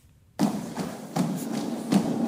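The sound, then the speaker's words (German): Fifteen dancers of Düsseldorf's official city carnival dance guard stomping in military lockstep, heavy thuds repeating at a steady beat over a continuous broad wash of sound. “Da stampft sie herein, die perfekt normierte Weiblichkeit im militärischen Gleichschritt. 15 Tänzerinnen der offiziellen Stadttanzgarde von Düsseldorf”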